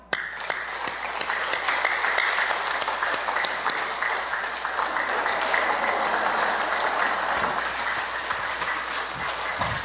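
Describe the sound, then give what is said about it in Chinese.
Rapid, dense clapping of palms struck together as a hand exercise. It runs steady and fairly loud through the whole stretch, with no talk over it. “好，第六个手掌互拍，”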